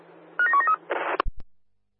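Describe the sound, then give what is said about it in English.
DTMF tones sound as a number is dialed on a telephone during a radio operator's call: a quick run of a few short, clear beeps, then a brief burst of hiss and two sharp clicks before the line goes quiet. “dialing now”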